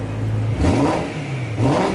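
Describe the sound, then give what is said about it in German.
A racing car engine revs, evoking a Ferrari. Two loud surges rise in pitch over a continuous growling drone, with no voices. “Ja, Ferrari. Es steht für Rennautos, teure Autos auf unseren Straßen.”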